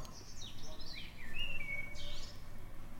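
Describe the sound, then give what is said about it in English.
Birds singing: several high chirps and whistles, including a sliding whistled note and a short clear tone, over a soft low background hum. “Dave, would you like to hear the birds in the background? I mean, I can hear the birds in the background.”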